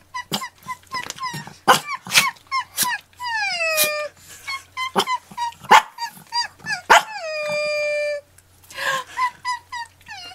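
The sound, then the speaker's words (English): A dog barks in many short, sharp bursts, broken by two longer whining howls that slide downward in pitch. “That's some good barking right there, a little sparky.”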